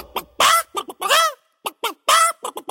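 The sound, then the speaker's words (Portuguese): A human voice imitates a hen clucking. Many sharp, choppy clucks are broken by a couple of longer, drawn-out squawks, loud and alone. “Viu a galinha excitadinha, a galinha falou:”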